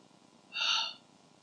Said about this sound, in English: So all you hear is not this spear going through him or his cry. All you hear is breath escaping his lungs.